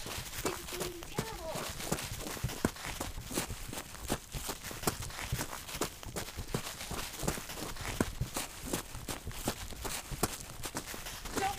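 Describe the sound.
Running footsteps thud quickly and steadily on the ground at Colonial Jamestowne, with many rapid steps heard under people talking.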